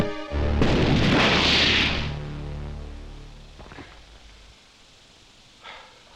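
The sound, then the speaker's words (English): A single heavy gunshot blast in a video game booms loudly and then decays slowly over a few seconds, followed by a faint click near the end. “The gun. It's the gun.”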